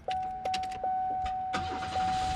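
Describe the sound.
A 1995 Oldsmobile Sierra, a donated used car in good shape, drives away with a low, steady engine rumble. A thin, constant tone runs throughout, and a few short clicks and knocks sound over it.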